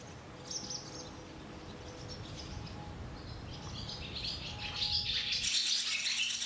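Swallows chirp in high summer while hunting insects, many short high calls that grow denser toward the end, over a steady low rumble.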